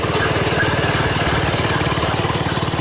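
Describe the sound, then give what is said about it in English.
Running footsteps of a woman on a moving treadmill come through as a loud, steady, rapid thudding over a constant mechanical drone, very regular in rhythm with no voices. “Because you can hear her footsteps in the background, can't you? They're like constant noise. Those are her footsteps. She's running.”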